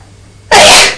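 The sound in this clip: A woman sneezes once: a single loud, sharp burst that begins abruptly halfway through, holds briefly and then tapers off, with near silence before it.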